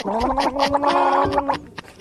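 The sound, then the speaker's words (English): Gargling mouthwash: a sustained, bubbling, voiced gurgle held for about a second and a half, wavering as the liquid churns, then fading into a few small sputters. “So what he decided to do was to take a shot of mouthwash and gargle.”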